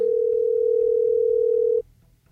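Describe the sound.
Ringback tone of an outgoing telephone call: one steady mid-pitched electronic tone held for almost two seconds and then cut off abruptly, with a faint low hum beneath and afterwards.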